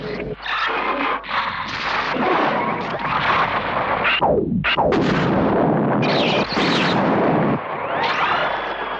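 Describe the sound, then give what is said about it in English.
Sci-fi laser beams fire in loud, harsh blasts, with sharp downward-sweeping zaps near the middle and rising whines at the end, all over a dense, explosive roar. “use our laser beam.”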